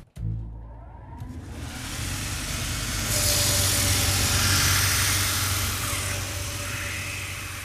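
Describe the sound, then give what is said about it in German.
A heel-grinding machine runs in a shoemaking workshop: the motor starts with a thump and settles into a loud whirring hum, then a harsher, hissing grind joins in from about three seconds on. “Hier stehen verschiedene große Maschinen. An den meisten sind so kleine Rollen drin. Jetzt darf ich noch beim Absätzeschleifen dabei sein.”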